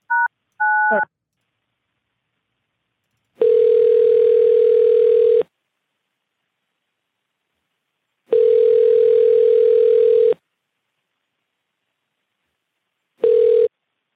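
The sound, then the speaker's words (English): Telephone line tones as a call is patched through to a warehouse extension: two short dialing beeps, then three long, steady ringing tones separated by silence, the last one cut short. “Okay, I'm patching him directly in, so hopefully he's going to pick up his phone.”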